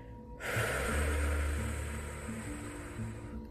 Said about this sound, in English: And then you hold it for 4 seconds, and you're going to feel your stomach expand. And then you exhale.